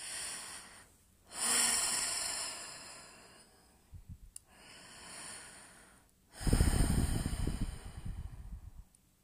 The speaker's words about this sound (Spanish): Vamos a respirar con la boca abierta y a, exhalar con la boca abierta, así.